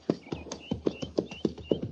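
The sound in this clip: Horses of a cavalry party on the Oregon Trail near Fort Laramie trotting off, their hooves beating a quick, steady, rhythmic clip-clop of many strikes, with no voices.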